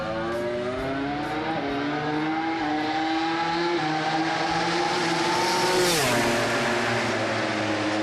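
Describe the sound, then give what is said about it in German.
Converted two-seater KTM MotoGP race motorcycle of over 300 hp at full throttle on a race circuit: a continuous, loud, high-revving engine roar with a steady pitch that dips once near the end. “Er ist mit einer umgebauten KTM MotoGP-Rennmaschine bei Jonas Folger mitgefahren. Ja, Doppelsitzermaschine über 300 PS und das mit Vollgas am Red Bull Ring.”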